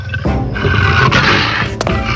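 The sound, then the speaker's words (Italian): A lion roars in a fairy-tale palace scene: a loud, rough, continuous roar lasting about two seconds, with no talking. “Aiuto, c'è un leone!”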